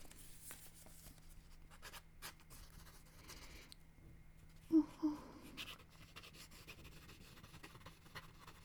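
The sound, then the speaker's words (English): Faint scratchy strokes of a pen writing down notes, a steady soft rasp with two slightly louder bumps partway through. “Go ahead and tell me. I'll write it down.”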